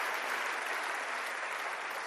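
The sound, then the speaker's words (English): An audience claps hands together during a worship service: dense, steady applause that holds at an even loudness for about two seconds, with no single claps standing out and no talk over it. “A hand clap to the Lord.”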